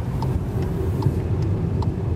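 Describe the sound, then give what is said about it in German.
Car driving on a road in southern Spain, a steady low engine and tyre rumble with faint periodic ticking above it, continuous and even in level. “Mit dem Auto geht es raus aus Malaga, 2 Stunden Richtung Osten in die Provinz Almería.”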